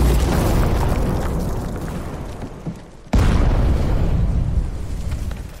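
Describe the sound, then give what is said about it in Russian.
A gunpowder barrel explodes in a cave: a low rumbling roar fades before a sudden loud blast, which is followed by a long, heavy rumble that slowly decays. “Затем поджигает бочку с порохом. В пещере раздается взрыв.”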